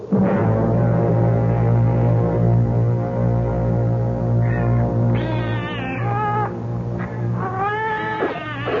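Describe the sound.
Several hungry cats meowing while being fed, their drawn-out, wavering meows rising in the second half over a steady, loud low hum.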